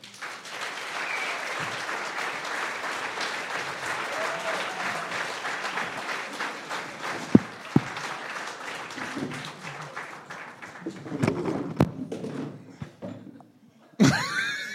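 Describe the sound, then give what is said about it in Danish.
A live comedy show audience applauds as two comedy performers are brought on stage. Dense, sustained clapping runs for about eleven seconds, then dies down into scattered noises and a couple of sharp knocks. “Giv en stor hånd til øh, Japans skyggekrigere.”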